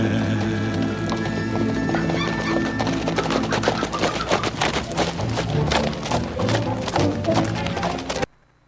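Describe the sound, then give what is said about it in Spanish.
Many horses' hooves clatter as riders arrive in a Western frontier town, a dense, loud, continuous clip-clop that stops abruptly near the end. “con ese sonido de los cascos de los caballos llegando a la ciudad de Tustón”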